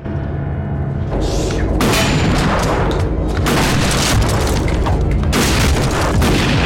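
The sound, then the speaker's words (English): Gunshots fired inside a house's games room: several heavy booming blasts over a loud, dense, continuous wash of noise. “He shoots at them.”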